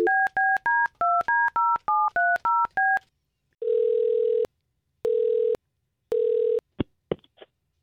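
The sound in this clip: Telephone keypad tones dial a call: a quick run of about a dozen short two-note beeps, then a pause, then three long, steady ringing tones and a few brief clicks at the end.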